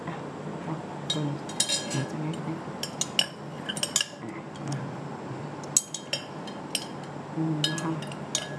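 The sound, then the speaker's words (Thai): Homemade shampoo mixture is stirred slowly in a bowl: light, irregular clinks and scrapes of a utensil against the container over a soft swishing background. “ค่ะค่อยๆคนไปแบบช้าๆนะคะท่านผู้ชมเราต้องใจเย็นๆนะคะเพราะอันนี้เป็นตัวแชมพู”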